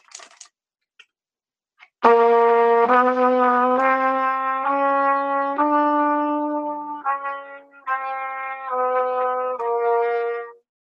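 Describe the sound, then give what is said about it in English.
A piano plays a chromatic scale in half steps: after a few faint clicks, about nine single notes sound one after another, each held briefly and cleanly before the next. “So chromatic scales are based entirely in half steps. So it's one note to the next note right next to it. Chromatic scales would sound something like this.”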